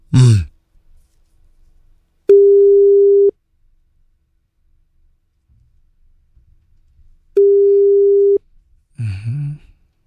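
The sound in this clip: Telephone line tones as a call is placed: two steady mid-pitched tones of about a second each, separated by a long quiet gap, with brief breathy vocal sounds at the start and end.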